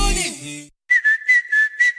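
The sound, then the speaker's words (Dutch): A person whistles a short tune of about five brief, evenly spaced high notes at nearly steady pitch. The whistling follows a fading musical sound and is heard alone. “Niet alleen de vogels fluiten in april, ook Toyota-rijders.”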